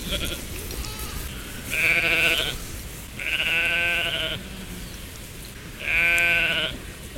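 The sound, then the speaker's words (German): Three loud, nasal sheep bleats, each about a second long, rise above a steady, rough background noise with short gaps between them. “Denn eins dieser Schafe hat tatsächlich eine Stimme, die mich an einen alten Freund erinnert. Schafe haben ja so Stimmen.”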